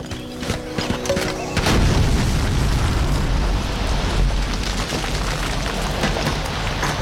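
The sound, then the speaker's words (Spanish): Explosion set off after a 'fire in the hole' warning: a heavy blast bursts in after about a second and a half, followed by a loud, sustained rumble that slowly eases. “¡Fuego en el hoyo! ¡Fuego en el hoyo!”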